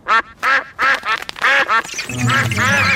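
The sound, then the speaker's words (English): Ducks quack at a frozen pond on a cold day, a rapid run of many loud, nasal quacks that merges into a longer stretch of overlapping calls. “Hello, ducks. We've got some bread for you. The ducks like bread.”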